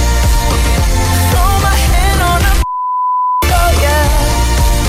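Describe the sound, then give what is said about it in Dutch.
A steady, single-pitched bleep censors a word in a loud pop song with singing, cutting the music off for under a second before the song resumes. “Maar welk woord is daar weggepiept?”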